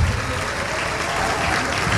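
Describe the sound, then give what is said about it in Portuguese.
Congregation applause during a religious worship service: a thick, continuous patter of many hands clapping, loud and even throughout. “Vamos aplaudir ao Senhor.”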